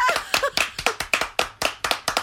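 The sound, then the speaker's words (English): Hand clapping rings out as many sharp, quick claps in an uneven rhythm. Each clap is crisp and fairly loud with a brief decay, and there is no talk over it. “We don't need the applause, do we?”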